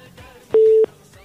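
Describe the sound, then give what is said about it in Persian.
A single short, steady, mid-pitched telephone line tone sounds once after a caller's call is cut off, over a faint background hiss. “بله خب تماس دوست ما قطع شد و میرین تماس بعدی رو میگیریم”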